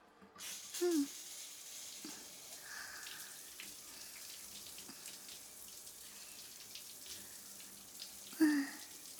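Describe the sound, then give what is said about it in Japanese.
Shower water rinses a young child clean after washing at bath time, a steady faint hiss of running water with a couple of brief louder splashing bursts near the start and end. “これで洗うのはオッケーかな。シャワーで流しちゃうよ。”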